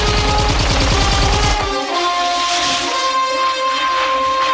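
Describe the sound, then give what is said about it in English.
Guards fire automatic guns at a skier on a mountain slope at night in a film scene. A dense, loud burst of rapid shots lasts under two seconds, then gives way to a sustained hiss with a steady high tone. “Blofeld's guards turn on a spotlight. They fire as Bond weaves his way down the slope.”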